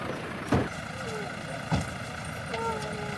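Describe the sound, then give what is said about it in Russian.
Engine rumble from two cars carrying people as they drive up and arrive, a steady low drone broken by a couple of short, sharper thuds. “К ней подъезжают еще две машины с людьми.”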